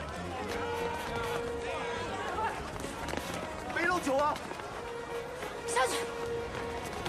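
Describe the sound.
People run along a street in a chase, with quick pounding footsteps beneath intermittent voices and shouts.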